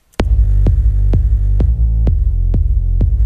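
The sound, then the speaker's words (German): A kick drum and a bassline play together in the same low range and overlap. Seven evenly spaced punchy kicks land over a steady, droning bass tone, with no voices. “Es läuft jetzt beides gleichzeitig und das Problem ist so ein bisschen, die Baseline ist quasi im selben Frequenzbereich wie der Kick und die werden sich überlagern.”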